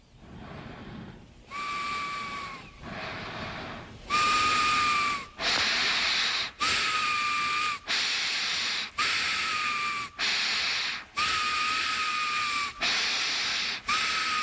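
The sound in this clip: Loud, whistling snorts of breath drawn through the nose repeat in a long, steady series of roughly even bursts, each carrying a shrill whistle-like tone, with no talking.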